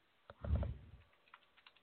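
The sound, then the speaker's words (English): Faint typing on a computer keyboard during a word game: a quick burst of clustered key clicks, then a few scattered light taps. “Start typing.”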